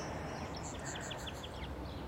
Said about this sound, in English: So I think I might have just heard a song sparrow there.